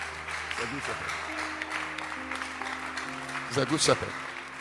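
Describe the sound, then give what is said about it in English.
Congregation clapping hands for a church member during a service, a continuous patter of applause under voices that talk over it, briefly louder near the end. “Everybody, clap your hands for Doreen.”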